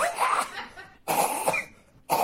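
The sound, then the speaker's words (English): Coughing from people on board a crowded vehicle comes in a few harsh, raspy bursts separated by short pauses. No sneeze stands out. “Everybody on board coughing and sneezing”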